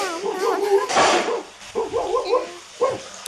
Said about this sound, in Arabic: ما هذا الصوت يا أمي؟ هل عندنا كلب في الحديقة؟ نعم يا أمي، أسمع صوت كلب.